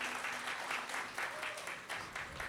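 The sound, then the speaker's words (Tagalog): Faint audience applause at a faith gathering, given in praise of the Lord. The clapping is soft and steady, with regular rhythmic pulses throughout. “So palakpakan ulit natin si Panginoon. Yeah. Isa pa nga, parang kulang.”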